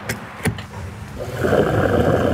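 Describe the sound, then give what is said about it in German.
Fuel pump nozzle dispensing fuel: two sharp clicks are followed by a steady rushing whir of flowing fuel that grows louder and continues to the end. “Der Sound der Zapfpistole.”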